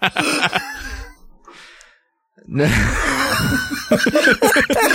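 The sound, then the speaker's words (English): Someone chokes on their own air in a sputtering, laughing cough. A few sharp breathy bursts are followed by a short silence, then a longer wheezing fit of coughs and laughter. “Made me choke on my own air.”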